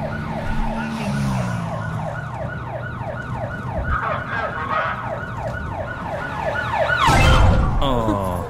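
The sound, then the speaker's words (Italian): A police car siren chasing the player in a video game, heard as a loud, rapidly cycling wail of repeated rising and falling sweeps over low vehicle rumble, swelling louder near the end. “Mi sto portando dietro sta macchina della polizia.”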